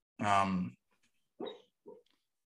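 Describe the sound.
A sleeping female dog whimpering and barking while she dreams: one longer whining vocal sound, then two short, softer ones, separated by silence and fairly faint overall.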